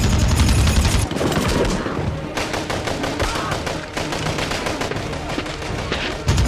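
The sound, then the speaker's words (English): Gunfire in a war film jungle battle scene, with soldiers shooting rifles from cover: loud, rapid bursts of automatic fire and single shots crackle without pause, layered into a dense, continuous barrage. “Reese rifle butts a soldier in the face, then shoots another. Lewis shoots from behind a tree trunk.”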